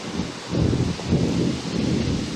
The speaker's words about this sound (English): This fucking wind, dude. Ever since you brought it up, it's been happening more.